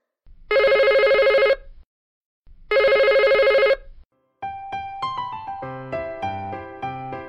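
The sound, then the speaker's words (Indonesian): A telephone rings in two long, loud electronic bursts separated by a pause, then a melodic ringtone plays a bright run of stepping notes. “dengarkan suara dering telepon berikut ini”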